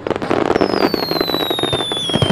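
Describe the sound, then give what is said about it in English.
Fireworks at a summer festival in Tokyo: rapid, loud crackling bursts pop continuously, while high whistling streaks slide steadily downward in pitch over the crackle. “Tokyo's fireworks festivals officially started in the Edo era, around 300 years ago, to honor the spirits of ancestors and ward off bad fortune.”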